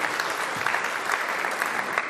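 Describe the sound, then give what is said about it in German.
Audience applause for a volunteer standing at the front: a dense, even wash of many hands clapping that holds at a steady, moderate level without fading. “Also Applaus für Karl einmal gerade hier.”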